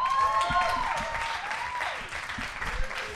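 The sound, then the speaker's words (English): Warm applause from an audience welcoming a speaker to the stage, dense clapping that starts strong and eases slightly over about three seconds. “But for now, let's give it up a really warm welcome for Mr. Jez Field.”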